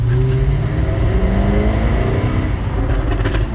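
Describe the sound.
A very noisy, fast car accelerates in first gear to about 20 miles an hour. Its loud, steady low engine drone climbs gradually in pitch throughout.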